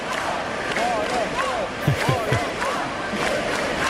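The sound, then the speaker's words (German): Crowd chanting, a thick mass of voices calling in rhythm with wavering sung phrases, joined briefly by a few low thuds near the middle. “hört ihr die Sprechchöre?”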